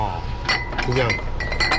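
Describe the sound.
Glass bottles of local 58-proof sorghum liquor clink together on a crowded shop shelf: several sharp, bright clinks in quick succession, with a voice speaking over them.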